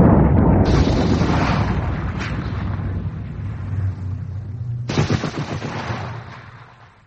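A grenade explosion and gunfire in a wartime fight: a heavy blast rumbles and slowly fades, broken by sharp cracks of shots, then a second loud burst of fire hits before the noise tails away.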